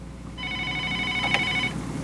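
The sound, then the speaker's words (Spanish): An incoming telephone call rings on a call-in line: one steady electronic ring tone with stacked harmonic pitches, lasting a little over a second, heard alone with no talk. “A ver, parece que está entrando una llamada.”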